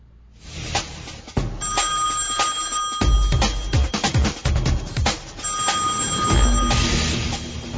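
A telephone rings unanswered on a call line, with two long, steady tonal ring bursts separated by a brief gap, mixed with occasional low thumps and clicks.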